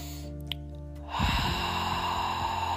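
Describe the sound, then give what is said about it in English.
A deep breath drawn in through the nose, a long, airy inhale that starts after a quiet second marked by one faint click, then holds at a steady, moderate level. “So let's take some deep breath in through the nose.”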